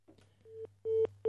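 Telephone busy tone on a call that will not go through: three evenly spaced, steady mid-pitched beeps, the last cut off, over a constant low hum.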